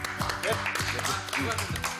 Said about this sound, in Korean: 박수.